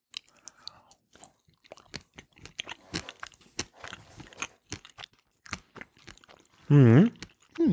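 Crunchy bites and chewing of sausage eaten with Roleski Polish mustard: many irregular, crisp little crackles and wet mouth clicks, with a brief louder tonal burst near the end.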